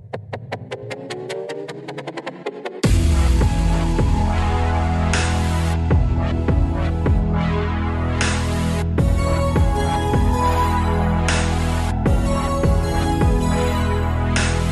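A praise and worship song opens with a sparse, plucked intro. A full band then enters loudly at about three seconds and holds a steady, driving beat with sustained harmonies and regular rhythmic accents.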